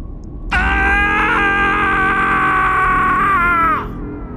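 A man's loud, drawn-out scream: one sustained, high, strained cry lasting about three seconds, holding a steady pitch before dropping slightly and cutting off, heard alone.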